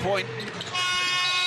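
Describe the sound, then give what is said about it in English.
A basketball game's end-of-quarter buzzer sounds as a loud, flat, steady tone that starts midway and holds to the end, while a commentator talks throughout. “It's all over now, and you can hear the buzzer”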